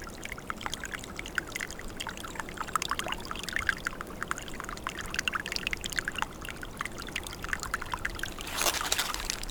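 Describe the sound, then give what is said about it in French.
A trickle of water runs through a forest with continuous gurgling and many small splashes and drips. It flows at a steady, fairly soft level, and a brief brighter gush comes near the end, with no voices. “Au milieu de la forêt glisse un filet d'eau.”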